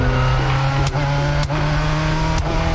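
A car with a manual transmission, driven roughly by a driver who has just learned stick, gives a steady engine drone with a few sharp jolts and knocks breaking through the hum.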